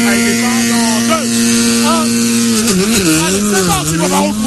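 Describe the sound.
A Skoda Fabia RS rally car engine drones at a steady pitch, then wobbles up and down as the car pulls away from the start, heard under a man's talk.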